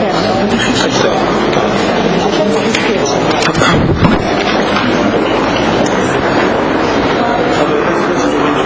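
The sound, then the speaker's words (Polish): Cold air blows constantly, a dense rushing roar that stays level throughout, with a brief gustier surge near the middle. “Dmucha. Zimne, tak zimne powietrze leci cały czas.”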